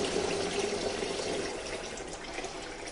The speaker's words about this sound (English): So the first thing I need to do is to rinse these nettles off.